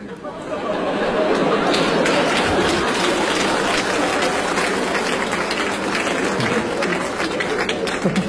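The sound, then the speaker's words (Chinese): Audience applause at a live comedic crosstalk performance: dense, steady clapping that swells quickly and continues loud throughout, with some crowd chatter mixed in. “就你们为什么鼓掌？”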